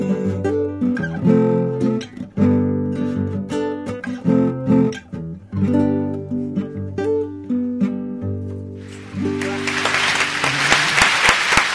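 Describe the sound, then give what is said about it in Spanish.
Applause breaks out at the close of a song, a broad, bright wash of clapping filling the last few seconds after sustained tonal music. “Somos muchos para aplaudir.”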